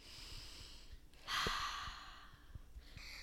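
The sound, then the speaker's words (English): A single deep breath, soft and airy, swells briefly and then trails off. It sounds faint and quiet, with no talking. “So she closed her eyes, put one hand on her heart, and took a deep breath.”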